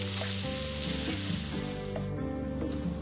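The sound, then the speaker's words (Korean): Lean meat and assorted vegetables stir-fry in garlic oil, giving a steady, loud sizzle with a dense crackling hiss that runs without pause. “마늘 기름 볶아 매콤한 맛과 향을 내고 연한 살코기와 각종 야채를 넣어 달달 볶아줍니다.”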